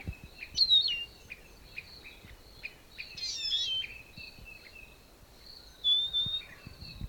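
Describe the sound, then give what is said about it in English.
Bird calls from a single bird: many short, high chirps and whistles in a quick, uneven series, with louder bursts in the middle and near the end, over a low, steady background rumble. “Stop. Same bird.”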